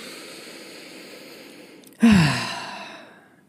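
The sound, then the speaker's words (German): A deep breath released as one long, audible sigh that starts sharply and then fades over about a second and a half. A steady, faint background hum sits underneath it. “Stimme dich am besten erstmal ein und mach dich ein bisschen locker und dafür atme einmal tief ein und wieder aus.”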